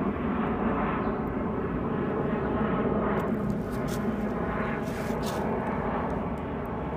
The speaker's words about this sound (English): Is it possible to get another airplane in here, please?